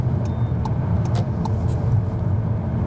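A car cruising on a motorway gives a steady, low engine and tyre rumble with an even level throughout, marked only by a few faint, brief ticks.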